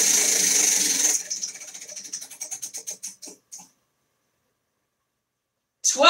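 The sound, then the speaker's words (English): A prize wheel spins during a live scoring game, its clicker ticking quickly and then slowing, the ticks spacing out until they stop, after a louder burst of noise at the start. “Here we go. Let's spin this wheel.”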